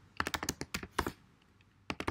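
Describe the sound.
Typing on a computer keyboard while entering text in database software: quick bursts of light, crisp key clicks, then a short pause and a final flurry of keystrokes.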